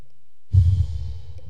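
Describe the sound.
A single deep breath let out as a soft, breathy sigh, starting after a short silence with a low rush that trails off gradually.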